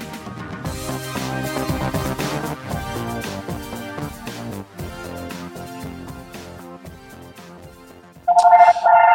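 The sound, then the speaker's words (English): A mobile phone ringtone cuts in loudly near the end, a bright repeating electronic tone over music that plays throughout. “Oh, hold on. You got a phone call? My phone's ringing in the background.”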